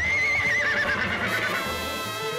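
A horse neighs in a loud, wavering whinny that trembles in pitch and then fades, leaving a rough, noisy tail.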